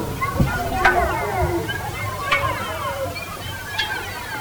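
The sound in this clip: Water sloshes and splashes in a basin, a soft, continuous wash of movement with a few brighter splashes, heard under people talking.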